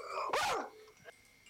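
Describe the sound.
A voice imitates a single short dog bark: one loud, abrupt yap that ends quickly, followed by faint low noise and a soft trailing sound.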